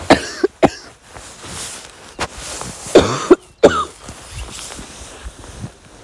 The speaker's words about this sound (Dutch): Ik heb een hele vervelende kriebel in mijn keel nu.